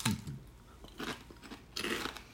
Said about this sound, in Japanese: ちょっと音が入りますが、片揚げポテト食べてみましょうか。